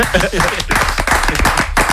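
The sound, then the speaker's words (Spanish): One person clapping hands in a studio: a few sharp, irregular claps mixed in with people talking over them. “en el otro lado del estudio, muchas veces hace una cosa que yo creo que deberíamos hacer todos. De repente se pone a aplaudir.”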